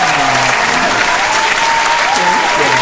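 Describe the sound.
A theatre audience gives a stage performer from a show at the Pantages a loud, dense round of applause. The clapping holds steady throughout, with a few whoops rising from the crowd.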